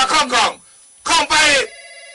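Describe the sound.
A telephone rings in two bursts, each a fast warbling double trill, with a short pause between them and a faint steady tone after.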